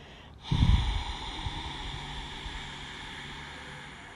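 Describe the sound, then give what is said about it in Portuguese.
A long, forceful exhale through both nostrils during a guided breathing exercise. It opens with a sharp, snort-like burst, then trails into a steady, airy rush that slowly fades. “Exala todo o ar por ambas as narinas.”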